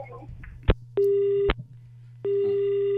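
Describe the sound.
Disconnect tone on a phone line after a call is cut off: a steady mid-pitched beep, a pause, then a second beep running to the end, with a sharp click before the first beep and a low hum underneath.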